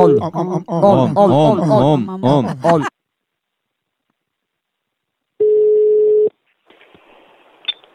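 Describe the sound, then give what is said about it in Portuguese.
A single steady ringback tone from an outgoing telephone call, one long, even beep following a stretch of talk and a silent pause, then faint line noise. “Eu vou ligar pra Matilde, a bigode grande.”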